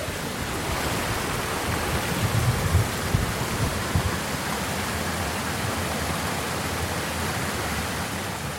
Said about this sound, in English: That's the sound of a waterfall nearby that I know I can go photograph.